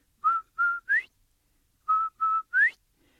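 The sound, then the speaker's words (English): A whistle blown in imitation of a quail's call, heard in two sets of three clear mid-pitched notes, the third note of each set sliding upward, with a short pause between the sets. “So old turtle lets Quail borrow his whistle. So Quail's standing there. He makes that beautiful sound.”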